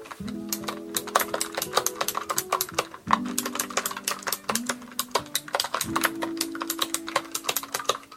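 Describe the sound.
Typing on a computer keyboard, a rapid, uneven stream of many crisp clicks and clacks in bursts with brief pauses, moderately loud and without talk.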